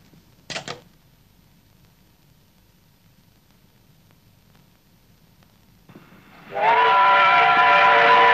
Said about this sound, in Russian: На станции прибывает поезд.